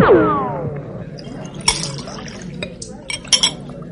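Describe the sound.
Clinking glassware and liquid sounds as cachaça with flour is poured and mixed for everyone in a bar, with a few sharp clinks and small splashes over low background noise.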